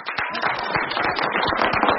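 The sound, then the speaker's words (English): Dense, loud applause from an audience on a cruise, clapping for a musical trio. Many overlapping sharp claps keep a steady, even intensity throughout. “Would you all kindly put your hands together in the usual way and give a great big round of applause to our super, super musician, the Jeff Graves Trio.”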